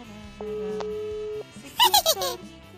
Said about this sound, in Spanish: Se va a enlazar la llamada, vamos a ver hasta dónde